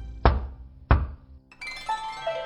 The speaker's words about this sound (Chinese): 正说着，虚掩的玉石大门外响起了沉稳的敲门声。